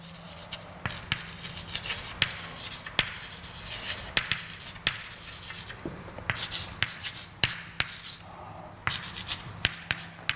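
Writing of a formula, a sum over topological types, with many sharp irregular taps and scratchy strokes over a steady low hum and no talk.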